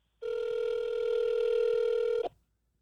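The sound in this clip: Telephone ringing tone heard while placing a call: one steady, mid-pitched electronic tone with a buzzy edge, holding for about two seconds and then cutting off abruptly, with no voices over it.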